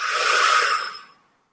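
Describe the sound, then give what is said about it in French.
A long, airy breath during a guided breathing exercise makes a steady broad hiss that holds, then fades smoothly to silence within about a second and a half. “on inspire et on expire.”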